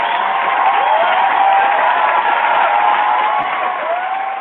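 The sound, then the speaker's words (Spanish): Applause sound effect: a dense, steady wash of crowd clapping and cheering that holds at an even loudness from start to finish, with a slight easing near the end. “Así que este aplausito va para Diego”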